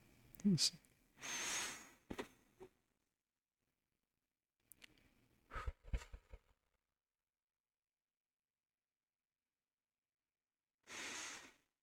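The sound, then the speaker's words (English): Slow, deep breaths drawn in and pushed out as a calming exercise for desk workers: soft airy whooshes in a few clusters separated by pauses, with one last long breath after an extended silence. “I will do just deep breaths, and I cannot stress enough how much this helps. So I'll do a quick sample one.”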